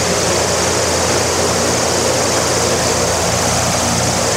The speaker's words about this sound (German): So, jetzt wird es noch ein bisschen lauter. Rotoren oder Propeller auf der Seite und auch am Ende.